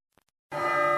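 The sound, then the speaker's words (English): A closing bell is struck once at a meeting of family heads, giving a sharp attack and then a bright, steady ringing tone that holds without fading. Before it there is near silence with a couple of faint ticks. “John Farr strikes the closing bell”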